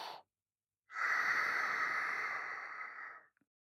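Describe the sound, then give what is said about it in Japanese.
A deep, slow breath: a brief airy sound, a short pause, then a long, steady, breathy exhale lasting over two seconds that fades out gently. “深呼吸して。吸って。吐いて。”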